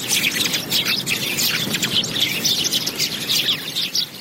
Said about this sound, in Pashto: خو سږ کال د خلکو ترغاک د مرغانو شور پکې زیات دی.